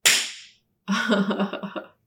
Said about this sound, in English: They get slapped on the ass.